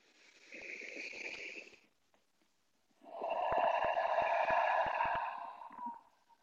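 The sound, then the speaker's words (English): A single deep breath drawn with no talking: a softer first stretch, a short pause, then a longer, fuller breath with a raspy, airy tone. “So just take one deep breath.”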